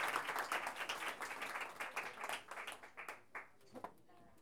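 Audience applause at a book launch and cultural event, greeting a performer who steps forward. Dense, fairly quiet clapping thins out over a few seconds into scattered individual claps.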